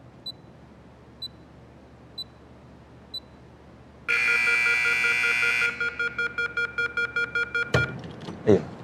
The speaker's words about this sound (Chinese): 就这个滴滴滴这个声能不能给它关了？